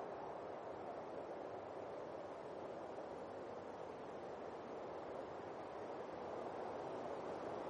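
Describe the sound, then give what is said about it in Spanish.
Wind sweeps across a snow-covered plain, lifting drifts of snow, a faint, steady rushing hiss with no breaks or gusting peaks. “En una llanura cubierta por la nieve, el viento sopla levantando polvaredas de nieve.”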